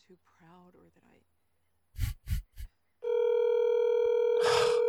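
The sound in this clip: An unanswered telephone call: a voice briefly at the start, three short thumps, then a loud, steady electronic phone tone that holds unbroken to the end.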